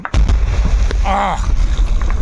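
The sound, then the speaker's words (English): Mine-clearing rockets with detonating cords fire and explode on a Ukrainian battlefield, producing deep rumbling blasts with a few sharp bangs and a short whistling whine. “what happens if there is a minefield that's more than 100 yards? You shoot once, and then you'll shoot again. On the front lines in Ukraine, rockets and their detonating cords are already arcing over the battlefield.”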